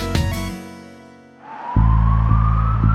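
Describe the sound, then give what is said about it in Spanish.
An ambulance siren sounds as a slowly rising tone, joined partway through by a loud, steady low rumble with a few soft pulses. No one talks. “Esa es una ambulancia. Allí va alguien que necesita ayuda urgente.”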